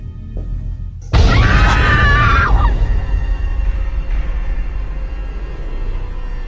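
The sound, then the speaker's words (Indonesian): A woman screams inside a dark toilet. The sudden loud, high, sustained shriek lasts about a second and a half, then gives way to a lingering noisy background. “ku dengar dari arah dalam toilet suara teriakan.”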